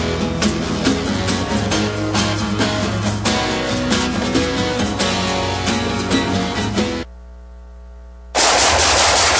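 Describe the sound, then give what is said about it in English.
Rapid automatic gunfire, loud and continuous in dense bursts for about seven seconds before cutting off abruptly. “Nice shooting.”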